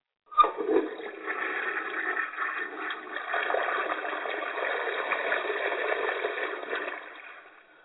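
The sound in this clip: Water goes down a drain, starting with a sudden splashy onset. A steady rushing, gurgling flow follows for several seconds and thins out and fades at the end.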